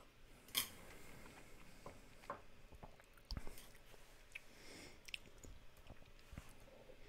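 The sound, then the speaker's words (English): Faint, wet lip smacking and mouth clicks. Several brief, sharp clicks and soft smacks are scattered across a very quiet background, with no talk. “Maybe you can hear the lip smacking noises, which are just awful.”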